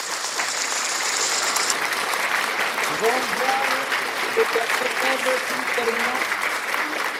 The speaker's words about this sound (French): Ma sœur, mon frère, Acclame pour le Seigneur Jésus-Christ de Nazareth. Acclame.